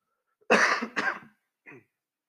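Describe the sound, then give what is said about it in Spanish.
A person with a dry throat clears it and coughs, with two harsh bursts close together followed by a shorter, softer one, then quiet. No talking is heard. “Ay, disculpen que tengo mi garganta seca.”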